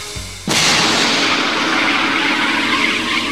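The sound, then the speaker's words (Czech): An anti-hail generator protecting orchard trees, firing an incendiary mixture into the clouds: one sudden loud blast bursts in and carries on as a sustained, roaring rush. “Sadaři tvrdí, že generátor úrodu ochrání, ale bydlet v jeho blízkosti se nedá.”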